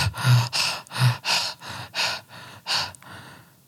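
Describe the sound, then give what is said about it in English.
Heavy panting from a person out of breath after running during a game of tag, a rapid run of loud, rasping breaths in and out at an even rhythm before trailing off, voiced as a demonstration of the panting. “suddenly I find myself out of breath. I'm going,”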